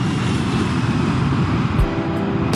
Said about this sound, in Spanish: Alto vuelo y que despegue ese avión rápidamente.